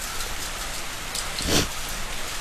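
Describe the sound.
Rain falls as a soft, steady hiss with faint patter, and one brief louder gush of noise rises near the middle before it settles back to the even wash.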